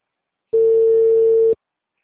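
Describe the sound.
A telephone ringing tone sounds while a call is being placed: a single flat, mid-pitched beep lasting about a second, with silence before and after.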